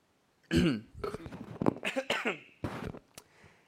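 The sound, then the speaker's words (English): A single rough, throaty cough bursts out loudly, followed by halting, choked talk. “Excuse me, I'm sorry. I need to get a little choked up. I'm just coughing in my throat, really.”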